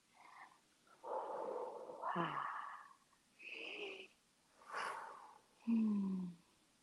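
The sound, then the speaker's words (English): Deep breaths taken during a relaxation exercise: several slow, rasping breaths separated by short pauses, some with a hoarse, voiced edge, all fairly faint. “So yes, please do take 5 deep breaths.”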